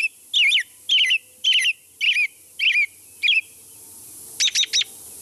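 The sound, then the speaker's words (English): Song of the American robin: six clear, warbling caroling phrases in a steady, evenly spaced rhythm, followed by a few short, higher, rapid notes, with no voices. “Yes, that's the song of the American robin.”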